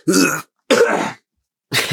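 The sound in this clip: Three short coughs or throat-clearing bursts, each loud and harsh, separated by clear silent gaps.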